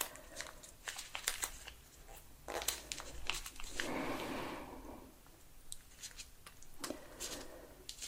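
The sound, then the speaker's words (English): Soft crinkly rustling and tearing as an edge is peeled up, coming in faint irregular bursts with a slightly louder, drawn-out rip in the middle. “Get to peel up the edge here. Always a fun part.”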